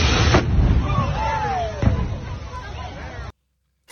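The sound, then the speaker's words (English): Propane tanks explode at Texas Motor Speedway during a car show, with two sharp booming blasts over a continuous roar and falling whistle-like tones between them, before the sound cuts off. “Do you see the propane tanks at Texas Motor Speedway? No. That exploded?”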